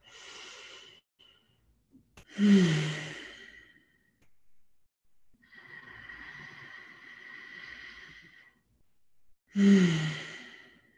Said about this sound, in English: And just remembering to breathe throughout it like this.